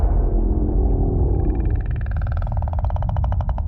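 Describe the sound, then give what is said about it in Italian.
A whale vocalization in an underwater scene with a diver: a deep, continuous rumble with a rapid, buzzing pulsed call that emerges midway and grows stronger toward the end. “Sembra un alieno più che una balena.”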